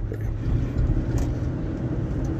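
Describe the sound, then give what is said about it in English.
A car driving home through a green light, heard from inside as a continuous low road and engine rumble with steady loudness and no pauses. “Ooh, I made that green light perfectly. I love driving home.”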